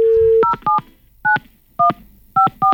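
A telephone dial tone gives way to several two-note keypad beeps as someone dials a number to call a friend. The beeps are short, clean and evenly loud, separated by brief gaps of silence.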